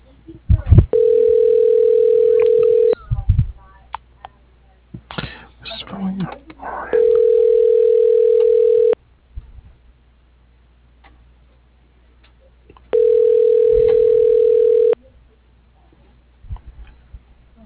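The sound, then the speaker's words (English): Telephone ringback tone while a call is being forwarded to voicemail. Three long, steady, mid-pitched tones ring at even intervals, with short muffled noises in the gaps between them. “Your call is being forwarded to a ShoreTel voicemail system.”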